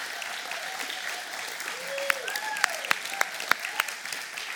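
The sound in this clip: Audience applause welcomes two guests onto a stage, a steady wash of clapping with a few sharper, louder accents standing out toward the end.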